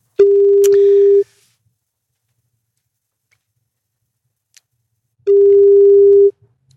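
A telephone ringing tone as a number is called: two steady, single-pitched tones of about one second each, separated by roughly four seconds of near silence, with a faint low murmur beneath.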